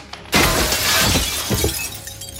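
A body crashes through a coffee table, with a loud shattering burst that starts abruptly and spreads into a dense spray of breaking debris lasting about two seconds.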